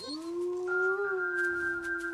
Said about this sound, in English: When she howled, they immediately howled back.